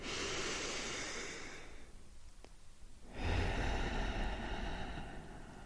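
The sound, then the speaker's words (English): Deep breath in and out: a long, airy inhale, a brief quiet pause, then a fuller, louder exhale of rushing breath heard alone. “Start by taking a deep breath in and a deep breath out.”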